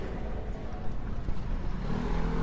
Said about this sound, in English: over the roar of the traffic. I think it's hard to hear. The traffic is intense here.